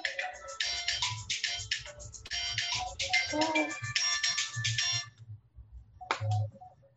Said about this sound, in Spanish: Apagué, bajé el teléfono.